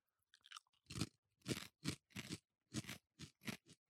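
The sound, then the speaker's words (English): Crunching of Hard Bites spicy ketchup potato chips being chewed: many loud, crisp crunches in an uneven rhythm, each a sharp burst with no talking. “This tastes like less ketchup flavor than your average random ketchup chip.”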